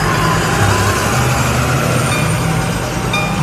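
A bus engine rumbles steadily as the bus drives on. It is a loud, continuous drone with a low hum and broad road noise, without breaks or pauses.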